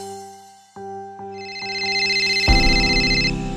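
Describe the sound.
A phone rings with an incoming call from an unknown number: a run of bright electronic ringtone notes that builds into a louder, fuller repeating tone, with no voices.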